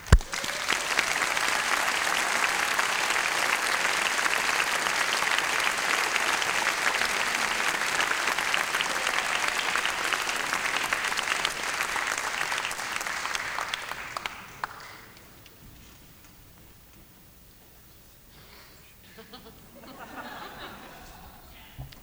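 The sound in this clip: A crowd applauds a swing music performer and her band as they are welcomed to the stage at a Swing Week concert. The clapping is thick and sustained for about fourteen seconds, then dies away to a much quieter stretch.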